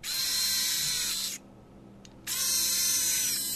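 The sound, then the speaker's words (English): Whirring of the tiny electric motors inside a Limbitless prosthetic arm: a high, buzzing whine runs for about one and a half seconds, stops briefly with a faint click, then resumes for over a second. “That's the sound of the tiny motors inside a Limbitless prosthetic arm.”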